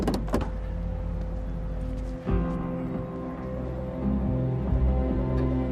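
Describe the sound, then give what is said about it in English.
Someone gets into a car: a few sharp clicks and knocks at the start, then a steady whirring, motor-like hum that carries on with a brief bump partway through. “Beam looks concerned as Felix gets in the car.”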